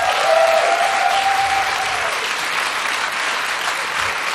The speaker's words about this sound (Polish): Ogromne brawa.